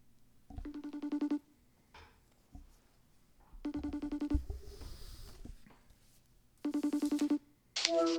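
Ringback tones from an outgoing phone call: three evenly spaced buzzing rings, each under a second long, separated by pauses of about two seconds, followed by a short sharp burst as the call connects.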